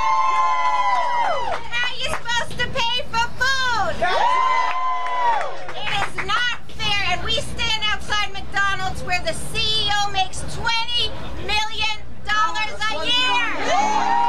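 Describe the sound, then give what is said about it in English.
Several hundred fast food workers and supporters rally outside a McDonald's on Union Square in New York, a loud, dense crowd chanting and shouting without pause, with voices calling out slogans over the mass of cheering. “That's the sound of several hundred fast food workers and their supporters outside McDonald's on Union Square in New York this afternoon.”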